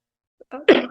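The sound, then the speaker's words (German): A single sneeze during a conversation: a brief faint intake, then a sharp, loud burst with a short trailing breath at the end. “Entschuldigung. Gesundheit.”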